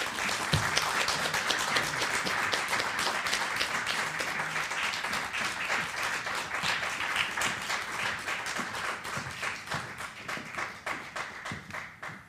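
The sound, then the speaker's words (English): Audience applause welcoming guests at a live evening event in Philadelphia, a dense, steady clatter of many hands clapping that holds for the whole stretch and eases slightly toward the end. “Philly, put your hands together and join me in welcoming tonight's guests.”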